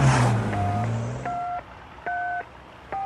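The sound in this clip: Keypad tones of a telephone number being dialed: four evenly spaced dual-pitch beeps, each lasting about a third of a second, the last cut off at the end, over a low background rumble.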